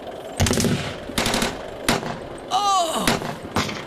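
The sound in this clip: Bursts of machine gun fire during a battle, several loud rattling volleys spaced roughly a second apart, with a high whining tone sliding down in pitch between two of the bursts.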